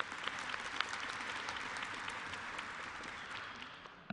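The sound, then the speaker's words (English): An audience in a room applauds to welcome online and television viewers. The clapping is a soft, dense patter that holds steady and then tapers slightly near the end. “would you give our online and television audience a big hand and welcome them?”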